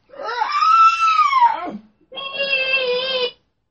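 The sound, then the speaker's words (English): A voice imitates a baby crying and squealing in two loud, high-pitched wails separated by a short pause. The first arches up and then falls away; the second is a steadier, sustained squeal. “And the beautiful baby Sarah, and she starts to cry and squeal.”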